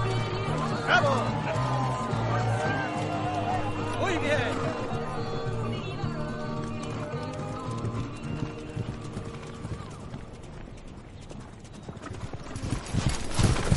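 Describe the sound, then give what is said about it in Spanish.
Steady clip-clop of a horse's hooves as a woman rides along a lakeshore, many even hoofbeats continuing throughout over a low background. “Cabalga a orillas del lago. Los cowboys la observan.”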